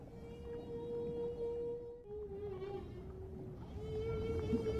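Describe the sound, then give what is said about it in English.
Whales call to each other underwater in drawn-out tonal moans that hold a fairly steady pitch, shift slightly, then rise again, over a low rumbling background. “that's the sound of whales talking to each other underwater”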